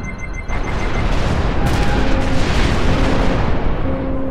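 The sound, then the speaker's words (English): Ship cannon fire erupts in a loud, sustained roar, with a sharp onset early on and a second heavier burst about a second later, rumbling on continuously with faint tonal hums beneath. “Fire when ready, Mr. Borte.”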